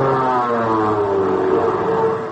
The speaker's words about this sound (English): Where do those planes come from? They're light bombers from a U.S. carrier on maneuvers in the Andaman Islands.